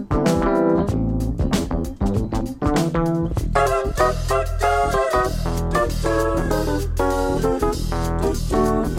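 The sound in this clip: A 1970s soul-funk track plays, opening with sparse, sharp staccato hits that give way to a full band groove with a rich stack of layered harmonic tones. The level stays loud and even to the end.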